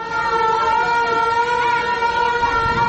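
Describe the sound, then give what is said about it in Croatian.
A general-danger air raid siren sounds in Herzegovina on a cold, windy day, marking the anniversary of a bridge destroyed by shelling. It is a loud, steady, sustained tone with strong harmonics and slight wavering in pitch, continuing throughout. “Zlokobni zvuk sirene za opću opasnost”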